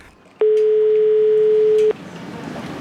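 A single steady electronic ringback tone sounds as a phone call is placed to a shop owner, holding one even pitch for about a second and a half before cutting off, leaving only faint background hiss.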